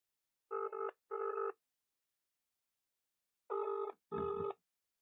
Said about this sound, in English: So I'm going to quickly try to phone Tuckers now and find out what is going on.